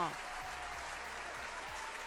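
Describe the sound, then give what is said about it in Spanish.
Faint crowd applause for National Veterinarian Day: soft, steady clapping with a voice-like tone running beneath it throughout. “¡Ay, un aplauso!”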